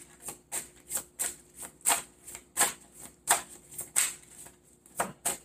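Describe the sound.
Tarot cards are shuffled in a steady rhythm, a long series of crisp papery riffles and taps repeating roughly evenly, moderately loud.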